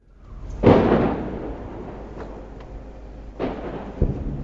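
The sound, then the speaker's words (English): Rocket impacts in the Sha'af neighborhood near Gaza City: one heavy, booming blast with a long rumbling decay, a few faint cracks, then two sharper, smaller bangs. “This is the Sha'af neighborhood, very close to Gaza City, and as you can hear, it's being rocketed absolutely continuously. These rockets are coming in closer and closer all the time.”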